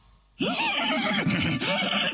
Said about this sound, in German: Pferde mögen es eigentlich nicht so sehr, wenn sie am Schwanz gezogen werden.